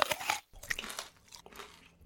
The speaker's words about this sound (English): Oh, this thing is delicious. What's it called? It's a candy apple.